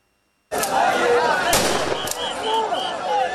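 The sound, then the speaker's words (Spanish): Police fire gunshots into the air to keep order in a long queue of hundreds of migrants in Ceuta: a couple of sharp cracks ring out over a loud, continuous din of crowd voices. “La policía ha tenido que disparar al aire para mantener el orden en la fila que hacían los cientos de migrantes”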